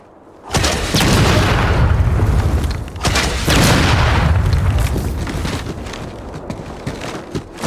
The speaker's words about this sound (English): I survived quite a strong rocket blast.